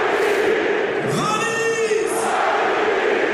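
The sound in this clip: A stadium crowd celebrating a Hannover goal, a 2:1 penalty: a loud, continuous roar of many voices, with a chant or cheer swelling through the middle before settling back into the general din.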